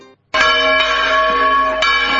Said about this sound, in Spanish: ¿qué hace tocando de esa manera las campanas, si ni siquiera es hora de misa?